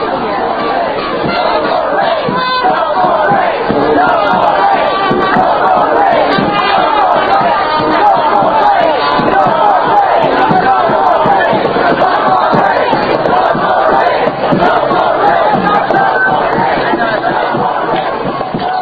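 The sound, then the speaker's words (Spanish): A protest march of over 400 people moves through San Francisco from Ferry Park near the Embarcadero on an October 31 morning. Dense crowd noise with chanting and shouting voices stays loud and steady throughout. “Estos audios son los sonidos que se escucharon en la mañana el 31 de octubre en San Francisco. Un grupo de más de 400 manifestantes marcharon desde Ferry Park”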